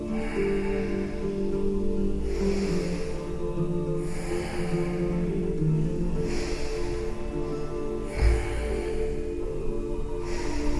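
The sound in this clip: Slow, relaxed breaths drawn in through the nose during an abdominal breathing exercise, several soft airy swells spaced a few seconds apart over a steady humming background.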